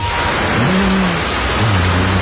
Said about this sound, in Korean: 그러던 어느 여름날 거센 소나기가 쏟아지더니